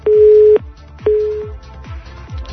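A telephone line tone sounds after a call disconnects: two steady, low beeps of about half a second each, separated by a short gap.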